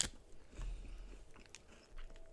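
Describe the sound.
Quiet chewing of a chewy snack, with a few soft bites and crunches, faint and close against a low background.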